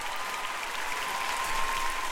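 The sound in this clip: A live studio audience applauds during a show's intro. The clapping is dense and even, with steady, full loudness across the whole stretch.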